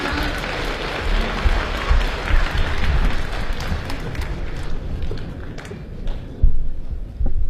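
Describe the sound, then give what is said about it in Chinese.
An audience at a crosstalk comedy show applauds as the performers are welcomed. The clapping is dense and steady, swells again near the end, and is mixed with faint crowd noise. “咱们掌声有请著名相声表演艺术家李金斗老师和他的高徒刘颖，有请二位。”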